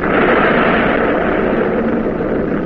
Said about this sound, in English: Commence firing! Salvo! Salvo! Commence, commence, commence!